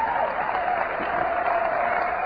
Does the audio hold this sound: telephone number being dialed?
no